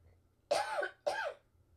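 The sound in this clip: Two quick, harsh coughs from a person with a tickle in the throat, the second following about half a second after the first, each a short breathy burst that stands alone.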